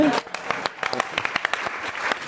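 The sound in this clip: An audience bursts into loud, raucous applause, many hands clapping in quick, uneven bursts, with a voice heard briefly at the very start.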